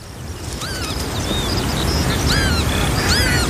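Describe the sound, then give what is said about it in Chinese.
Northern lapwings call while tending two chicks, repeated high, sharp rising-and-falling cries over a constant loud rushing background. “一对凤头麦鸡正辛勤地照料着两只雏鸟，”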